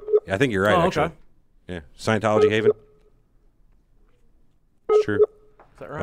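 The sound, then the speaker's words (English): Skype outgoing call tones sound as steady mid-pitched beeps that recur a few times, overlapping and filling the gaps in a conversation between people talking. “Oh, this we're not in a submarine. This is the sound of Skype making a phone call.”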